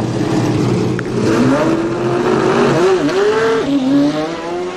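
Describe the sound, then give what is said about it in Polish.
A racing car pulls away with a loud, continuous engine roar whose note climbs steadily in pitch, broken by two brief dips like gear changes, and no voices over it. “A kto tak ruszył z piskiem opon?”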